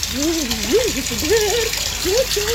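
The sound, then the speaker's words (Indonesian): Water running from a tap left on while someone bathes, a steady hiss that continues under a person speaking. “Woi, matiin krannya. Kalau udah tidak dipakai.”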